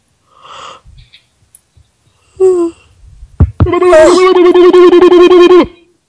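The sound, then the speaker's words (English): A person's exaggerated vocal yawn. A few soft breathy sounds lead into a long, loud, wavering moan-like tone that lasts about two seconds and then cuts off. “That's how I yawn all the time.”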